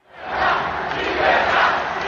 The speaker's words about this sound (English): Javier Milei was sworn in to huge applause, chants of yes he can and freedom from those who voted for him.